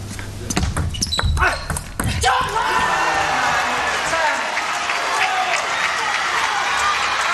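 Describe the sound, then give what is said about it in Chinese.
Table tennis ball served and struck in a professional match, a few sharp clicks in quick succession, then a sustained burst of crowd applause. “现在梁景坤发球。”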